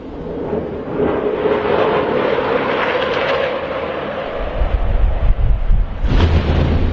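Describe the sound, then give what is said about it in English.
A sonic boom from Israeli military jets over Beirut rolls out as a loud, sustained rumbling roar that lasts several seconds and deepens into a heavier, lower rumble near the end. “After 2 days of explosions on the ground, that noise was heard in the skies above the Lebanese capital Beirut today. A sonic boom from Israeli jets”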